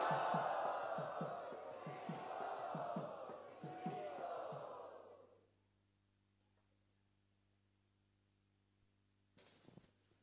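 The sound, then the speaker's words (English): A crowd loudly chants Hare Krishna in welcome: many voices in unison in strong rhythmic pulses for about five seconds. Then they stop and near-silence follows, with a brief faint sound near the end. “Let us offer our sincerest welcome by loudly chanting Hare Krishna.”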